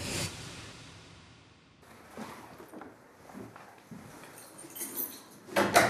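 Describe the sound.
A priest locking a church door with a key in Selbu. Scattered metallic clicks and rattles sound over a faint background, ending in a brighter, louder clatter of metal.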